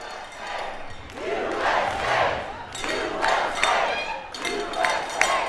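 Hockey fans at a watch party at Union South in Madison cheer during the women's gold medal game, several loud swells of shouting and whooping that rise and ebb in waves.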